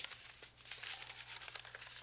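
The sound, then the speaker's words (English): Paper crinkling and rustling as a paper roll is fitted into a player piano, a faint, continuous scratchy texture over a low, steady hum. “You put the paper piano roll in here, and then you push this button.”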